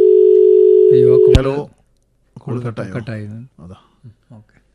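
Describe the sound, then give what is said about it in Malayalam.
A steady, pitched telephone line tone sounds after a call is cut off, holding level for about a second and a half before it stops, and people then begin talking. “ഉസ്മാന്റെ call കട്ടായി എന്ന് തോന്നുന്നു”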